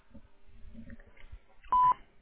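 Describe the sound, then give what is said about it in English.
A telephone keypad DTMF tone on a voicemail system prompting a callback number: one loud, steady beep lasting about a quarter second, preceded by quiet low murmuring background noise. “To leave a callback number, press 5.”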